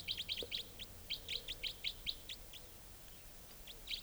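A wild female bird calls in a rapid series of many short, high-pitched chirps, quiet and quickly spaced, thinning out toward the end with a last chirp after a brief pause.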